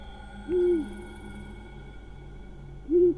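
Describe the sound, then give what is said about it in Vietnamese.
A scops owl hooting mournfully over a house roof: two short, mid-pitched tonal hoots a couple of seconds apart, clear above a faint steady hum, with no voices. “tiếng con cú mèo nó lại kêu lên những tiếng ai oán, bay vòng vòng ở trên mái nhà.”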